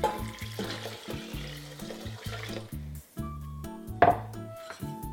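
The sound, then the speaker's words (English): Liquid pours into a pot of short-grain sticky white rice, a steady watery stream that runs continuously for a few seconds over a tonal background. “So for every one cup of white rice, you wanna add one and a half cups of liquid. So we're just gonna add that right in.”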